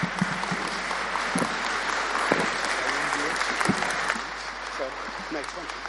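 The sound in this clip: Audience applause welcomes someone to the front after a Bible reading. The clapping is steady and dense, with voices talking over it, and it eases slightly toward the end.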